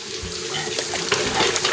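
Water splashing and running as a large round basin is washed out, a fairly faint, steady rushing wash broken by a few brief sloshes.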